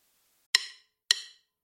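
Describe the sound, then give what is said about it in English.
Drumsticks clicking together to count off the tempo, sharp, bright wooden clicks evenly spaced about half a second apart, two full strikes with a third landing at the very end. “That's the sound of drumsticks, setting the tempo for change.”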